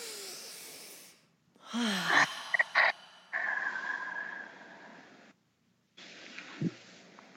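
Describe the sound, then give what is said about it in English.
A few deep, airy breaths taken together by a group, with a long rushing exhale lasting about two seconds, fairly loud and separated by brief silences. “We'll just take a breath then. Everybody, everybody together. Let's breathe.”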